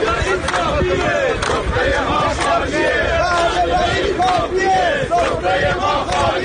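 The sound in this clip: A crowd of retired telecom workers protesting in Ahvaz chants loudly and steadily. Many voices rise and fall in repeated rhythmic phrases over a constant crowd din.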